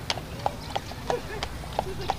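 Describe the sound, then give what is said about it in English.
Hooves of a carriage horse clip-clop on pavement in New York City, a steady rhythm of about six sharp, bright knocks over roughly two seconds against a low background murmur. “the rhythmic gait of a carriage horse in New York City.”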